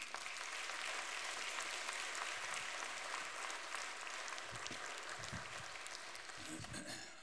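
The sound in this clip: A church audience applauds steadily to welcome a guest speaker to the pulpit at a Sunday morning service. The clapping is dense and continuous and eases off slightly toward the end.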